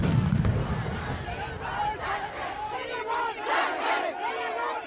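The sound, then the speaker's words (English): Crowd noise from a violent mass demonstration in central Delhi, India: many voices shouting and crying out together in a loud, continuous roar that swells and ebbs. “We turn now to India, where a mass demonstration has turned violent in central Delhi.”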